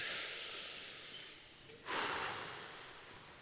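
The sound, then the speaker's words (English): A group taking a deep breath together, a broad, airy hiss of many breaths that swells partway through, soft and steady without talk. “I want you to put your hands on your knees, palms up, and I want you to take a deep breath with me.”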